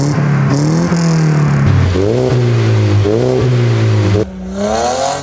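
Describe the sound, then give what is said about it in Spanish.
A car with a newly installed custom exhaust system revs several times, its deep engine note climbing and dropping in repeated bursts before settling abruptly to a lower, rumbling idle near the end. “instalamos un sistema de escape. Es probable que ese sonido no te guste a ti, pero al dueño que estuvo presente sí le gustó”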